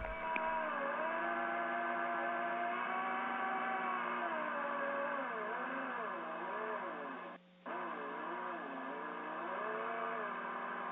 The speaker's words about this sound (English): And then as I get farther along into finishing the piece, I kind of slow down, and so what you're hearing are the different speeds of the wheels.